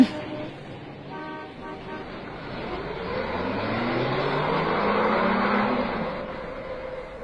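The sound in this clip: A car pulls away and drives on after a traffic jam clears. The engine hum builds steadily, over road and traffic noise, with a brief horn toot early on.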